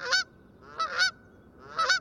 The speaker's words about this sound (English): Or this familiar cry of the Canada goose.